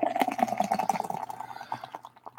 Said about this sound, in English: So let me aggressively pour this.